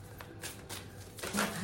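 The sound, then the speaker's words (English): Tarot cards are shuffled before a final card is drawn, giving a few soft, papery swishes of the deck. The sounds are faint, irregular and alone, with no voices. “Okay, one more final card message, please. Spirit, what have we got?”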